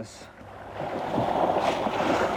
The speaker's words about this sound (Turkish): Su üzerinize böyle sıçrarken bu ürkütücü. Ve çok derin.